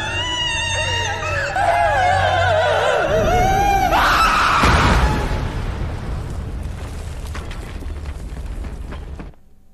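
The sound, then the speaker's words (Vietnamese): An eerie, echoing scream in a night-time horror scene: a loud, wavering high-pitched wail climbs near the middle, then breaks into a harsh, noisy roar that slowly fades. “Giật nảy người vì nghe tiếng hét vang vọng đâu đây.”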